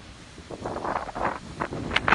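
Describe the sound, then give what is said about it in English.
Gusty wind buffets the microphone on a breezy evening walk through a Massachusetts neighborhood, a soft, uneven rush with several stronger gusts and no talking. “Got ourselves a breezy Tuesday evening up here in Massachusetts, back home, walking through the neighborhood.”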